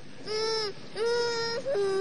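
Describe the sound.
A child cries in three drawn-out, wavering wails with a steady, harmonic pitch inside a car parked near the seashore as rain begins to fall.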